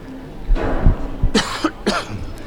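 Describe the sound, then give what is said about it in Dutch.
A person coughs several times in short, harsh, breathy bursts separated by brief pauses, loud and alone with no talk. “Soms als ik even moet hoesten, moet je maar even invallen.”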